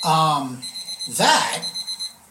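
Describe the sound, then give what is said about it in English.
A spaceship proximity warning alarm from the bridge beeps in a rapid, even series of high electronic pulses, with a brief spoken word and a burst of other noise cutting in partway through. “That's the proximity warning coming from the bridge.”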